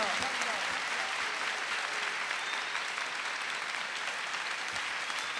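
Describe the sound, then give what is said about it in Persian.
An audience gives a Heydari clap together, a loud, steady wash of dense applause kept up throughout, with voices mixed in. “میخواهم یه صلوات بفرستید استقبال کن با یک کف حیدری اول بزن ماشاءالله”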